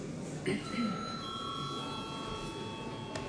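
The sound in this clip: An electronic bell rings in a council session, calling members to a vote. It gives a sustained, clear ringing tone over a quiet room hum, then fades near the end.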